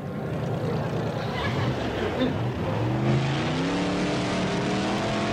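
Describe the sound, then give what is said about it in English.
Grandpa's custom car roars off the starting line at a race. The engine revs as a broad rumble, then climbs steadily in pitch from midway through. “I really gotta hand it to you, Grandpa. This is quite an attractive vehicle. Detroit could take a lesson from this design. Look, there's Grandpa at the starting line.”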